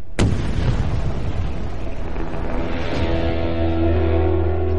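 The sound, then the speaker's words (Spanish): German artillery bombardment: a sharp, loud blast opens, and a second, weaker boom follows around the middle. Rumbling, crackling noise continues between and after the blasts, with no voices. “Cualquier intento de descanso es rápidamente frustrado por el constante bombardeo de la artillería alemana.”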